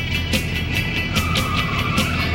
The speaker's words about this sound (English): Watches as the motorhome drives behind the truck.